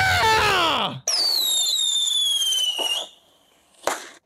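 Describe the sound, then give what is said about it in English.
Rocket fireworks sound effect: a whistling launch sweeps down in pitch, then a long high whistle sustains and slowly sinks before fading, and a sharp crack bursts near the end. “I am taking a, let me see, fireworks. No, that's not what I wanted. Ah, here it is. Rockets.”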